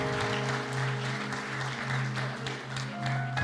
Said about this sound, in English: And once again, I just want to give them a hand clap of appreciation.